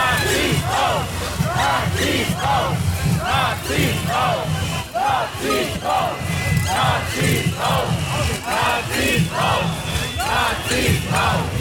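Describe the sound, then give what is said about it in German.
A crowd jeers loudly outside a town hall as a prominent AfD figure enters. Many voices rise in rhythmic, repeated shouts, one surge after another at a steady pace. “Es wird lautstark gebuht. Anscheinend irgendeiner der AfD-Prominenz betritt die Stadthalle.”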